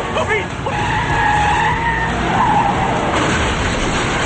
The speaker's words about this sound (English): A vehicle comes at them and they swerve toward a guardrail.